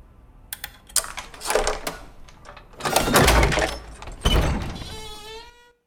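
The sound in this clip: Metallic clicks and rattles as a key goes into the lock of an attic door at the top of a stairwell, followed by louder scraping clunks and a short, high creak as the door opens.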